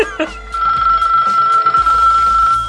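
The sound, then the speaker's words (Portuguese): A novelty mobile phone ringtone with a Portuguese woman's voice plays as a loud, steady ringing tone, with her speaking voice mixed in. “Então ele baixou os toques de celular da portuguesa, né? Que ela fala, atende o Telegram. Esse toque aí, toca aí.”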